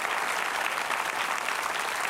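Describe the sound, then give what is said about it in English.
Audience applause fills the whole clip: a thick, steady patter of many people clapping at an even level, with no voices standing out. “Yeah, you wanted to applaud. Go ahead.”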